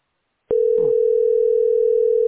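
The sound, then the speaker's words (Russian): A steady telephone tone while waiting in a call queue to book a doctor's appointment. It starts with a sharp click and becomes one unbroken mid-pitched hum, with a brief rustle near the start. “Ну, это идет звонок. А потом говорят, ваша позиция 7.”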